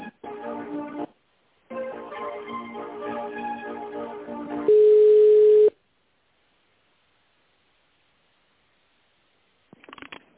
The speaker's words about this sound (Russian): Так, не отвечает этот номер. Соединяю 28-23.